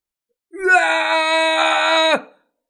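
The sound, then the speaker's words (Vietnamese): A man screams loudly in pain, a single raw, sustained cry lasting about a second and a half at a steady pitch before breaking off with a brief downward drop. “Diệp Phàm kêu to, máu hoàng kim toàn thân chảy rất nhanh”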